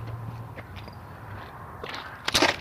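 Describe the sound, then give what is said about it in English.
Soft footsteps of a person walking up from behind on an outdoor path, faint at first, with a few louder steps near the end. “Got a jogger coming up behind me.”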